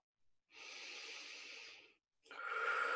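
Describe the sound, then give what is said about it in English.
A deep, airy breath sounds alone: a brief soft puff, then a long, steady, hissing breath, and after a short pause another strong breath begins. “Deep breath.”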